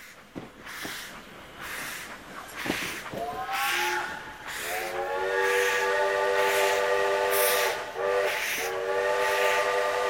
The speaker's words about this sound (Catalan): Això és un tren de vapor, crec, segons documentació.